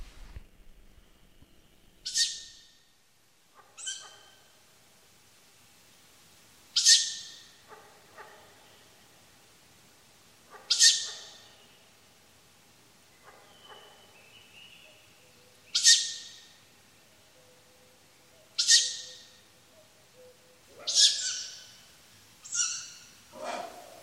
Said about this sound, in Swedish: Och där hör man tiggande ungar, men så kommer det snart en betydligt grövre röst.